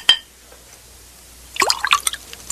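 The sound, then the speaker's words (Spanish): Wine poured into a king's cup: a single sharp drip early on, a quiet pause, then a burst of splashing, gurgling liquid that continues to the end. “Tenga esta copa, es mi copa. Sí, su majestad. Ahora, llénela de vino.”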